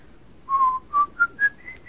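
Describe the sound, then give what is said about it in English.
A man whistles a song: a handful of clear, pure notes, each short and separated by brief gaps, stepping upward in pitch, with no other sounds. “Why'd you whistle that song so much?”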